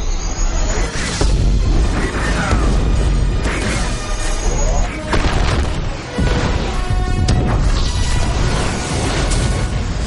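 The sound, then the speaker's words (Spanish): A starfighter crashes and bombs blast sections of an oscillator during a trench run, producing a loud, dense barrage of booms, crashes and rumbling impacts that carries on without a break for about ten seconds. “El TAI se estrella. Poe bombardea secciones del oscilador.”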